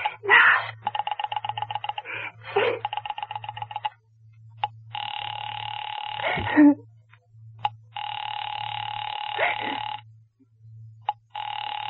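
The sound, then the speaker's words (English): A telephone number is dialed direct after an operator call: a rapid run of pulsed tones, then long steady electronic tones broken by short gaps, over a constant low hum. “You may dial that number direct.”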